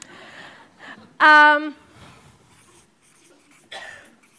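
Words written down with a squeaking stroke: one loud squeak of about half a second, then a shorter, fainter one near the end, with faint scratching between over a quiet background.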